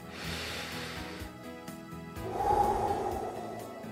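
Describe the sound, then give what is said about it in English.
Deep breaths are taken during a prayer: a long airy breath, a pause, then a fuller, louder breath. Soft music with sustained tones plays underneath. “let's take a moment to pray together using a breath prayer. Let's take a breath and have a prayer.”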